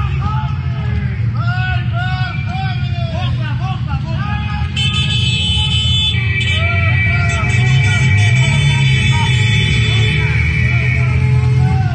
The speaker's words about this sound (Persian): بعد به مردم رو تشویق میکنن به بوق زدن.